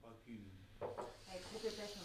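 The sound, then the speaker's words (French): Faint hiss and sizzle of crêpe batter cooking in a frying pan over low heat, a soft continuous fizz with quiet talk. “Nous y avons versé une louche de pâte. Nous avons réparti dans la poêle. Là, nous attendons qu'elle soit cuite d'un côté avant de la retourner.”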